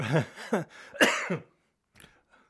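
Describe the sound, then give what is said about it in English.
A person coughs several times: a few harsh, throaty bursts in quick succession, then a couple of much fainter, short coughs after a brief pause. “I can't even speak without coughing.”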